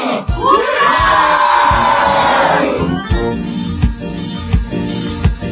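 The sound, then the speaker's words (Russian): A crowd shouts a long, sustained hurrah in honour of Pippi Longstocking, its massed voices sliding downward as the cheer fades. A few heavy, thumping beats follow at a steady pace. “«Ура!» в честь девочки по имени Пеппи Длинный Чулок, громко провозгласил бранд-майор. Да здравствует Пеппи! Ура! Ура! Ура!”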